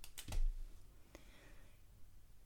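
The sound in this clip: A few faint, sparse clicks of keys on a computer keyboard as a note is typed, with a soft dull thump near the start and no talk.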